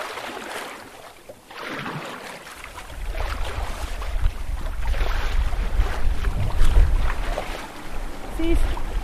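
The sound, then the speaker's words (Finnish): Wind blows hard at sea from the north, a rough, gusty roar with deep rumbling that swells noticeably louder after the first couple of seconds and stays strong to the end. “Ei mennyt kuin hetki ja alkoi tuulla. Ja pohjoisesta.”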